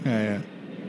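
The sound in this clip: Airplane passing over an outdoor back patio near an airport: a broad, steady roar that stays loud throughout, with a voice heard at the start.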